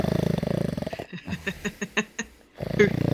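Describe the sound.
A human voice imitates snoring: a rattling, buzzing drone, then a run of short snorting puffs separated by near-silence, then the rattling drone returns.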